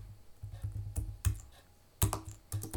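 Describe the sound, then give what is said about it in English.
Typing on a computer keyboard whose O key is broken, a few loud, irregular clicking keystrokes in short clusters with brief pauses between them. “And yes, I cannot type Carmelo because my O is broken. I can't type Ricochet either.”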